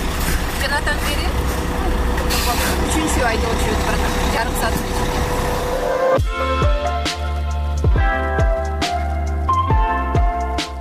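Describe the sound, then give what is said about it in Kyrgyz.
Trucks and buses rumble at a busy truck terminal, a dense, continuous engine drone under speech, with sharper knocks and clatter in the later part. “Терминалда кыймыл токтобойт. Бир тарабынан рейске кетип бараткан, бир тарабынан эс алуу көзүнөн учуп, алыскы өлкөлөрдөн келаткан айдоочуларды көрөсүң.”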